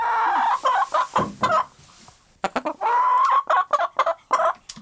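A hen clucking inside a henhouse as people come in and disturb her: many short, rapid clucks in uneven bursts, with a brief lull midway before the clucking resumes.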